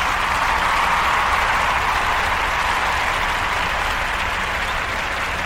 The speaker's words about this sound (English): Let's give a hand for this show.